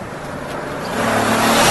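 Car drive-by sound effect: an engine's whoosh builds steadily in loudness over a second and a half, with no voices.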